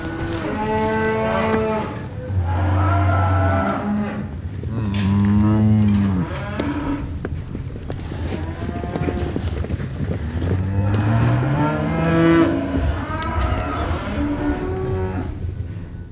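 Cattle bellowing as a herd stampedes across a ditch: many loud, drawn-out moos overlap and run continuously without a break, some lower and some higher-pitched, sounding mournful.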